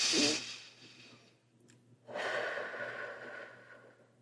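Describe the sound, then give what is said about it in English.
A deep breath drawn in sharply through the nose, then a slower, longer exhale out through the mouth. Both are soft and airy, heard alone with no talk, during a calming breathing exercise. “Take a deep, calming breath in through your nose and out through your mouth.”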